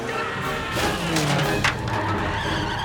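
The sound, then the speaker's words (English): A car crashes through the entrance barrier to a TV studio lot: dense, loud engine and skidding noise with a sharp impact burst partway through. “Uncle Arthur cuts in between two cars and turns off the main road. You are. They crash through the entrance barrier to the TV studios.”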